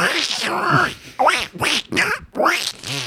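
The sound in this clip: A voice imitates Donald Duck, producing garbled, quacking, speech-like noises in short nasal bursts with brief pauses between them.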